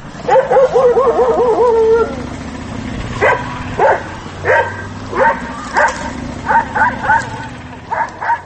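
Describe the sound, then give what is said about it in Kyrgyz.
Stray dogs barking in the street of a town in Kyrgyzstan. A wavering, whining yelp comes first, then many sharp barks spaced roughly half a second to a second apart, loud over a low background. “Мынтип Баткен облусунун борбору болгон Баткен шаарында ары бери өткөндөргө сүр көрсөтүп, үрүп жүргөн жолбун иттерди ар бир эле көчө сайын жолуктурууга болот.”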